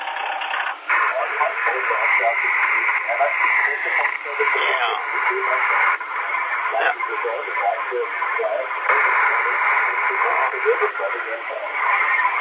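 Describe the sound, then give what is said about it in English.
Amateur radio reception through a super loop antenna with noise reduction lowered: a muffled, narrow-band voice talks continuously over a steady bed of hiss. “let me turn this noise reduction off a little bit. I'll try the super loop. Okay, the super loop seems to.”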